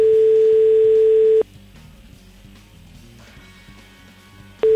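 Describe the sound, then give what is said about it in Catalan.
Ringback tone of an outgoing phone call to a mobile: a steady mid-pitched tone holds for about a second and a half, falls silent for about three seconds, then starts again at the end. “Va, fem una tercera trucada a Mireia, ja per descartar-la.”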